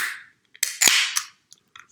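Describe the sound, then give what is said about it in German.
A drink is opened with a brief hiss, then a sharp pop and a short rush of released gas, followed by a few faint small clicks. “Ich mache mir ganz kurz hier mir was zu trinken mal auf.”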